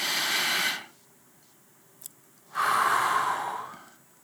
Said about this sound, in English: Do that two more times and breathe in God's peace. Breathe out your anxiety.